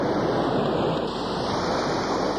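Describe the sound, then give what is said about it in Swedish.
Strong wind blowing as a storm approaches, a dense, steady roaring hiss that fills the whole clip without pause. “Vinden tilltar. Stormen är på väg tillbaka.”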